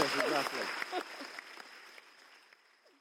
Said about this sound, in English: please do give an even bigger round of applause to Jacob Rees-Mogg, Julie Rees-Mogg, and Chris Martin.